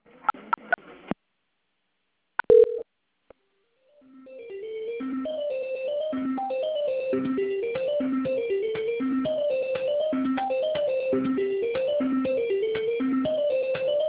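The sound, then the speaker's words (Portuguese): Business telephone call being transferred: a few sharp clicks and a short beep, then silence on the line, followed by a steady, repeating electronic melody that continues to the end. “Vou transferir agora, só um momento. Fiquem, a minha ligação vai ficar muda por um instante, tá?”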